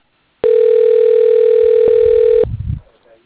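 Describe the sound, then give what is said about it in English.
A telephone tone from an office phone line calling a company extension holds loud and steady for about two seconds. It then cuts off abruptly, followed by a brief low clatter. “Press to dial. Sydney Windsor. Press 1. Press 3. Dialing.”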